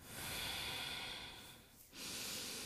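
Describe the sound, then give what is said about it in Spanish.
Deep breathing during a guided relaxation: one long, steady, airy breath, a brief pause, then another breath begins, with no talking. “Respiramos.”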